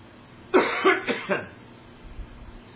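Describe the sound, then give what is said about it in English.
Four harsh coughs from a person with a returning cough during a sermon, coming in quick succession over about a second, each a short, rough burst, then quiet. “I'm sorry, I'm getting this cough back that I got rid of 2 weeks ago.”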